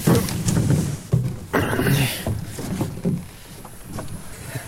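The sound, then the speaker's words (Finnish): A boat being launched into the water: uneven bursts of sloshing and scraping, with gusts of wind buffeting the microphone throughout. “Pistetäänkö vene vesiin?”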